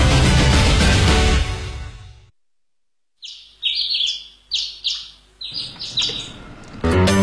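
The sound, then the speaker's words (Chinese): A person imitates bird calls with a quick run of short, high, chirping whistles, in a gap between louder passages of music. “你发鸟叫就能证明你聪明吗？”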